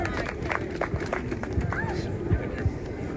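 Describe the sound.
Audience applause welcoming a speaker on stage: a steady, dense wash of clapping and crowd noise that holds at an even level throughout, with voices mixed in.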